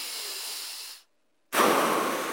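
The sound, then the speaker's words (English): A deep breath drawn in, then a short silent pause and a long breath out, both soft breathy hisses of about a second each with no talking. “Let's do it two more times. Take a breath right now.”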